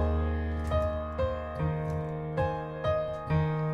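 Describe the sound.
Piano plays the second measure of a song intro, opening on an A-flat chord over sustained left-hand E-flats, then a steady run of struck notes that ring and overlap at a measured tempo.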